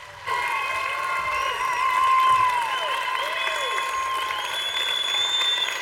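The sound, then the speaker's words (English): Church audience applauding and cheering to welcome a pastor, rising whoops over a steady bed of clapping and sustained music tones. “So right now, I want to ask you to stand up, make some noise, and put your hands together as we welcome Pastor Galen Clark.”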